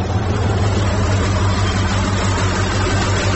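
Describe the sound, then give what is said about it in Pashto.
A truck engine on a desert road gives a steady, loud low rumble under broad rushing noise. Its loudness stays even throughout. “تا ته ودرېږه، یوه لارۍ خو راغله، همدا لارۍ ته به لاس ورکړم.”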